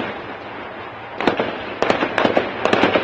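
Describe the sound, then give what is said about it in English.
Live machine gun fire at night during deadly violence: sharp cracks in several rapid clusters over a constant rushing background noise. “You're hearing there the sound of live machine gun fire that peppered the nighttime as violence left hundreds of casualties and at least seven dead”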